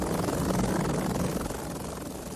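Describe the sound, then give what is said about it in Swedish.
Helicopter flying straight overhead, a steady dense roar of rotor and engine noise that stays loud throughout and eases slightly toward the end. “Nej, det är ingen fat, det är en kopter. En helikopter,”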